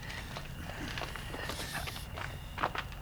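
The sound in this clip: Faint footsteps walk across a hotel floor, a few soft irregular steps set against a low steady background hum.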